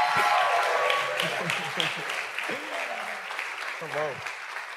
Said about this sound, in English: I want you to make some noise and help me welcome Brother Steve and Miss Donna to the stage tonight.